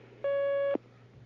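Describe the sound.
A telephone line tone sounds as a phone call is taken: one steady electronic beep lasting about half a second, clear over a low hum.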